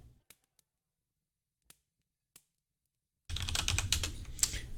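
Typing on a computer keyboard: a few faint, isolated clicks spaced apart, then a dense, rapid run of louder keystrokes that continues to the end.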